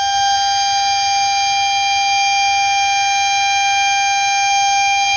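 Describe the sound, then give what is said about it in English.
A siren sounds at a pool room in Dawsonville, holding one loud, steady, unbroken tone with bright overtones from start to end, with no voices. “That is the sound of the siren at the Dawsonville Pool Room.”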